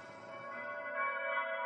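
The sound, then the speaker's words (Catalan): A church bell tolls with a sustained, resonant tone rich in overtones, holding steady and swelling slightly in loudness without a fresh strike. “Aquesta campana sembla que toqui l'enterro de les meves il·lusions.”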